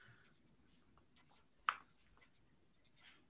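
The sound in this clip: Faint scratching of someone writing by hand, soft uneven strokes with one sharper tap near the middle.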